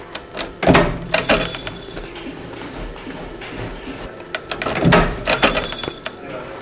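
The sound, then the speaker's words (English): Metallic clanks of a riveter fixing a plate onto a Carradice bag, with a washer and backing set on an anvil. The sharp, ringing strikes come in two separate clusters, with quieter rustling between them. “So he'll place a washer on the anvil and get the backing inside the bag, and then line up the riveter and rivet the plate onto the bag, and the washer will be on the back of it.”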